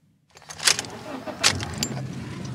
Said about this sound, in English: We drive the last couple of blocks to the house and park in the driveway.